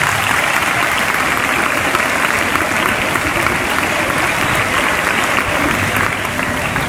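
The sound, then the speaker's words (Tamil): Steady audience applause from a crowd at a Tamil-language talk: dense, continuous clapping at an even, fairly loud level for about seven seconds, with no clear voices rising above it. “Super. இதுக்கு கைத்தட்டல.”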